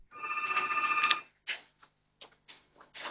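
A telephone rings for an incoming caller, one bright trilling ring burst lasting about a second, followed by a few short clicks and knocks as the line is picked up.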